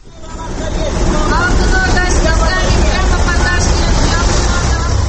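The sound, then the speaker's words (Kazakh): Street traffic, including Chinese-made buses, at a bus stop on the Tole Bi and Furmanov intersection in Almaty. Engines rumble in a loud, steady roar that swells in at the start, with a murmur of voices mixed in. “Қазір мен Төле би мен Фурманов көшесінің қиылысындағы аялдамада тұрмын. Бұл жерге басқа көліктермен қатар Қытай автобустары да тоқтайды екен.”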